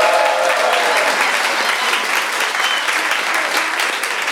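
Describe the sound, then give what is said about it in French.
Sustained applause from a show audience voting by clapping: a dense, steady patter of many hands at full strength from start to finish. “Applaudissez.”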